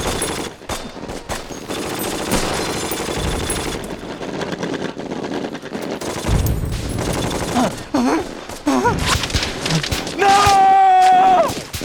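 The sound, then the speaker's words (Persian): Sustained gunfire rattles through a battle, with dense machine-gun bursts and rifle shots layered almost without pause. Shouting voices cut in briefly toward the end. “گانیل میخکوبشون کن، به شلیک ادامه بدین.”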